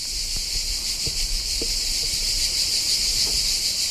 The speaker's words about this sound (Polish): Więc będzie głośno od ptaków, będzie głośno od cykad, będzie głośno od różnych dźwięków.